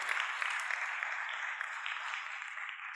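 Fairly faint, even applause from an audience welcoming two guests onto the stage, a thin continuous patter of clapping with no single standout claps.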